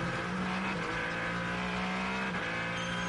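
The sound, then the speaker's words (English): A Ferrari race car drives during a race, its engine giving a sustained, fairly quiet mid-pitched drone that holds steady with only slight wavers. No voices are heard over it. “The Ferrari of Alessandro Paghidi. Paghidi pushing along.”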